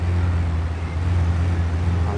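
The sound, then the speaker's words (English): Car engine in the video game Grand Theft Auto: Chinatown Wars, a steady low drone with layered harmonics. It holds at an even, unbroken level as the car drives through a small city and out onto a freeway. “A lot of this is just driving sim. You know, just trying to drive in a smaller city.”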